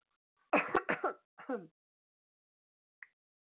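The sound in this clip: A person coughs and clears the throat, bothered by something stuck there for some time: a quick cluster of four short, rasping bursts, then a pause and one faint, very brief final clearing.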